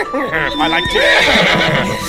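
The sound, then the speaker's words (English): A horse neighs in a long, quavering, high-pitched whinny that fills about two seconds, loud and continuous. “Ah! That's right, my trusty steed. Yes, here. Yes, he is right here.”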